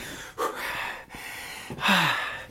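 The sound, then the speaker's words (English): Heavy, out-of-breath panting after playful roughhousing: a few loud, breathy gasps and exhalations separated by short pauses, with no talk over them. “I'm out of breath already.”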